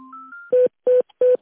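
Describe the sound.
Dialing and ringing tones as a telephone call is transferred: a short pair of steady electronic tones, then three loud, evenly spaced beeps of the same pitch.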